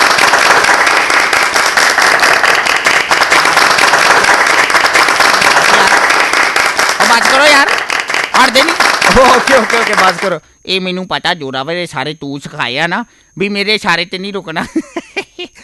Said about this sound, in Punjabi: ਜ਼ੋਰਦਾਰ ਤਾਲੀਆਂ ਬਈ ਜਿਹੜੇ ਇਕੱਠੇ ਹੋਏ ਪਏ ਸਟੂਡੀਓ 'ਚ ਸਾਰੇ ਜਾਣੇ, ਜ਼ੋਰਦਾਰ ਤਾਲੀਆਂ ਮਾਰੋ ਜੀ